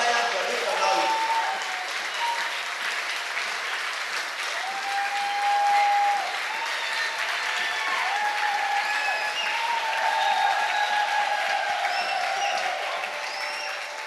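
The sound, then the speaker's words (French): A church audience applauds and cheers in praise of the Lord, with sustained, steady clapping running throughout and voices raised above it. “Vous êtes fatigué d'acclamer le Seigneur. On laisse. Si vous êtes fatigué, on laisse.”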